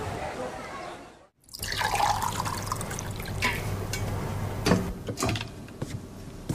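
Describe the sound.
Water pours into a glass for drinking, a steady liquid trickle that starts after a brief silence and runs for several seconds over a low, constant hum.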